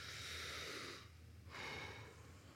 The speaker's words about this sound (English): Ready? Just taking a breath.